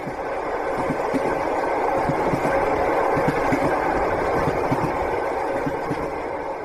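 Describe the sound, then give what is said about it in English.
A passenger train rides on rails in Russia, giving a continuous, even rumble with a low clatter beneath it, and no talk throughout. “They get on the train and they're headed to a little town called Yaroslavl on the Golden Ring.”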